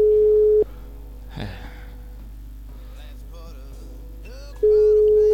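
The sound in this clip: Ringback tone of an unanswered prank phone call: a steady, low, pure tone sounds briefly at the start, stops while quiet talk and murmuring fill a few seconds, then returns at the end.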